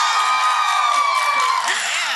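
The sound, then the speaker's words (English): A live audience at a ladies' night event shouts, whoops and cheers in a loud, steady wash of voices that lasts the whole time. “we are at CLC for a live audience recording, so let it be known that you're here. Shout it out.”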